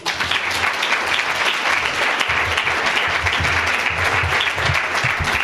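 Applause from a bookstore audience in Denver welcoming an author: thick, sustained clapping begins abruptly and continues at a steady, fairly loud level for about five seconds, with no voices over it.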